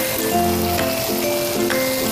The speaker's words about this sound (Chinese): 好，把腌制过的虾放在木薯粉里打个滚儿。接下来我们把这个虾一个一个的平铺在锅的面上，